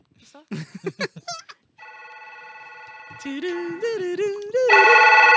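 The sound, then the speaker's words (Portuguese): A telephone ring tone sounds after a burst of voices talking: an electronic tone that holds at a steady pitch, then steps upward and grows louder toward the end. “toca esse telefone”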